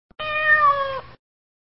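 A single clear cat meow: one sustained tonal call lasting about a second, holding steady before dipping slightly at the end, heard alone with no other sounds.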